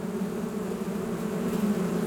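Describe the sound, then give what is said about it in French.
Honeybees buzzing while performing the waggle dance: a steady, low droning hum of many wings that holds unbroken and fairly even throughout, with no voices. “Regardez, effectivement, regardez là. Alors, vous voyez, c'est un échange d'informations, c'est ce qu'on appelle la danse des abeilles.”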